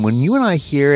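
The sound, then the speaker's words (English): Many cicadas chorus in a steady, dense, high buzz that runs through the whole second beneath a voice speaking. “The plague. This is the sound of lots of cicadas,”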